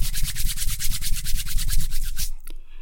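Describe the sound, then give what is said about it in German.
Hands rub together briskly during a self-massage routine, many quick rhythmic swishing strokes in a steady run that stops abruptly near the end. “Und noch einmal die Hände reiben.”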